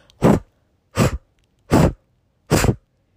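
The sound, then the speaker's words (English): Four forceful breaths in and out through the mouth, evenly spaced with short silent gaps between them, each a loud, airy whoosh that lasts about a quarter second. “And a blow breath is a breath in and out through your mouth. It sounds like this.”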